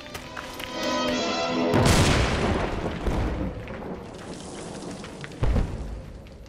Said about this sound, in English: tell them to deploy grenades. We need to clear him out right this second. Right, Walter! Deploy frags, boys! Deploy frags! Get down, everybody!